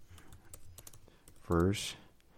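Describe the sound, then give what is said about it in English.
Typing on a computer keyboard produces many faint, quick clicks in an uneven rhythm, with a short burst of voice partway through. “And I'm sorry if you could hear my typing”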